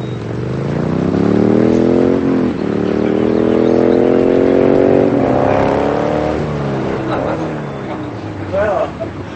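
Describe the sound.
A motorcycle carrying two riders arrives with a loud, droning engine, its pitch rising and wavering steadily through the whole stretch.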